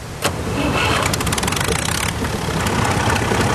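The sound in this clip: A farm tractor engine on a rural Argentine road as rain begins, opening with a brief burst as it starts, then settling into a loud, steady low rumble with a constant, even drone throughout.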